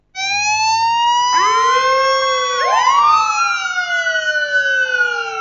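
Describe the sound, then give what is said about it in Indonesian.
Sirens of a passing hearse and ambulance wail loudly and continuously. A second siren joins with rising sweeps, and the overlapping tones slide against each other over steady road noise. “Mobil jenazah lewat. Iya. Itu kalau nggak salah mobil jenazah Mahatahfiz Al-Quran Darussunnah. Ada mobil ambulan juga nih.”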